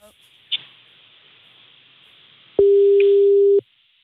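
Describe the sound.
A single steady telephone tone sounds while a call is being placed. It is a plain, low, continuous tone lasting about a second, preceded by faint hiss and a short click.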